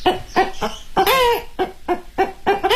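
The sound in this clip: A human voice imitates an old hen clucking with circular breathing, in a run of many quick rhythmic clucks and a longer drawn-out cackle near the middle.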